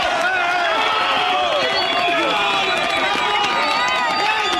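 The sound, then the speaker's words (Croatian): Bystanders cheer and clap for rescuers who have pulled a woman from the rubble of a collapsed apartment building after an earthquake in Pereira, Colombia. Many voices rise and fall over a steady, loud crowd noise. “Kolumbijski spasioci su u Pereiri izvukli 36-godišnju ženu ispod ruševina jedne stambene zgrade. Bila je zarobljena 36 sati. Nagrađeni su aplauzom prisutnih građana.”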